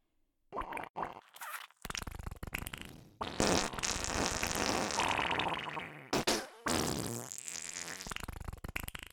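Flatulence from a middle-aged woman relieving herself on a toilet: a few short sputtering bursts, then long, loud, wet rumbling stretches broken by brief gaps, with no talk over it.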